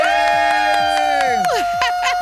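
A studio audience cheers and whoops loudly to welcome a Grammy-winning singer. Sustained shouted cries slide down in pitch over a continuous crowd roar.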